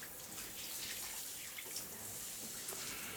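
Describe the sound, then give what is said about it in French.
Warm water streams and runs steadily, a soft, unbroken hiss of flowing water that stays fairly faint throughout. “sens ma chair se réveiller à la chaleur de l'eau qui ruisselle.”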